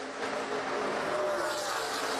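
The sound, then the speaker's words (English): Stock car racing engines roar around the track in a continuous, loud, droning mix of motor noise with a steady high whine, no commentary heard over it. “Jeremy Clements now races through turn number one as your leader. He enjoys a 2 second advantage over Ross Chastain as they head through two.”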